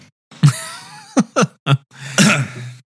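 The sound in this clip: A person coughs and clears their throat with something stuck in it: a few sharp, separate bursts, then a longer, rougher throat-clearing rasp near the end.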